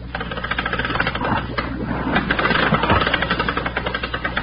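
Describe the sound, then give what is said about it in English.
A winch on deck hauls up a load with a loud, steady mechanical rattle and chugging drone that keeps going without a break. “Well, where's that winch? Send it right back to you, Mac. Here she”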